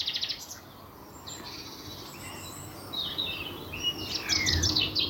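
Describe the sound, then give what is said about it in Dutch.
Common chaffinch song on a spring day: bright chirping notes, then a quick descending trill near the end, over a steady background hiss. “Daar horen we de vinkenslag.”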